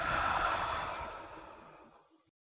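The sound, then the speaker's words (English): A single deep exhale during a relaxation breathing exercise, a long, soft, breathy rush of air that fades steadily over about two seconds and then falls silent. “Do that one more time. Breathe in. Let it all out.”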